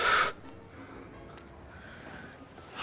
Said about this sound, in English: I want you to try this. Breathe out. Breathe in.